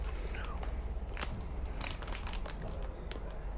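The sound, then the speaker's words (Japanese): Crunchy biting and chewing of a soy-flour snack: many crisp, crackly crunches in a steady run over a constant low background hum. “これなんかさ歯ごたえがさ、うん、ちょっとシャリシャリってするのなんだろうね”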